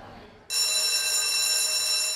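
School dismissal bell ringing at a private secondary school in Ribadava: a steady, loud, bright electric ringing that starts abruptly after a short quiet moment and holds without pause.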